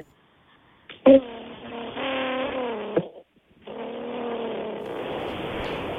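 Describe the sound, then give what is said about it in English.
A human voice imitates a car engine revving in two long, buzzy bursts of wavering pitch. A sharp accent opens the first burst, and a brief silence separates it from the second, which runs steadily to the end. “Can you please give me your best rev noise?”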